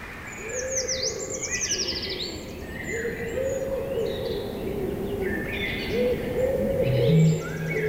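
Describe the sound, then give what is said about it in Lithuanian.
Birds sing outdoors in nature, with many bright chirps and trills and a lower hooting tone beneath, over a steady low background. “Paukščių čiulbesiai, upės šnabždesys, vėjo istorijos medžių viršūnėse.”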